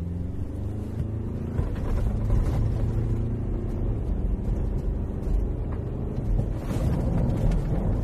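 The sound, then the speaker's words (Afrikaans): An Everest SUV pulls away at full throttle on a dirt road and then stops, heard as a steady, heavy, low engine rumble that stays loud throughout, with no voices. “Ek het hom op 'n grondpad gery. Hier is 'n voluit wegtrek en stop.”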